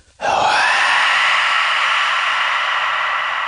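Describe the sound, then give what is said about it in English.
A sped-up recording of a tree's pores opening bursts in suddenly as a loud, harsh, steady hiss-like roar. It holds almost unchanged for about three seconds, alone. “I sped up the sound of a tree's pores opening to a speed you could actually hear. That's what it sounds like.”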